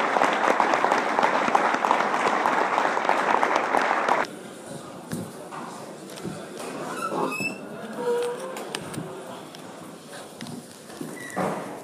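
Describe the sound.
Audience applause, a full burst of steady clapping for about four seconds that stops abruptly, leaving quieter room noise with a few scattered sounds.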